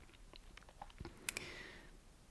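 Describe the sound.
A person takes a sip of a drink: a few soft, wet mouth clicks and a short swallow, faint and heard alone without talk.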